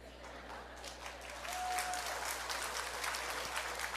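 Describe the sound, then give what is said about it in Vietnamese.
Audience applause at a talk: faint, steady clapping that swells slightly after the first second and then carries on evenly. “Ồ, đây được vỗ tay đã quá.”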